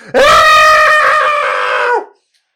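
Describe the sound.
A man's voice imitates the startled yell of a man jumping back: one loud, strained 'ah' held for about two seconds, sliding down in pitch as it cuts off.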